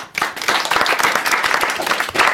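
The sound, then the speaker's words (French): Students applaud their teacher at the end of a class: a burst of brisk, dense hand clapping that starts abruptly and stays loud and steady throughout. “C'est agréable hein, quand vos élèves vous applaudissent.”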